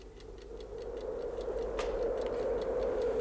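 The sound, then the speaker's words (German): An alarm clock ticks steadily on a cable reel, its regular sharp clicks riding over a low, constant hum beneath, with a crackling stove fire in a hut. “Ich stellte den Wecker auf eine Kabelrolle.”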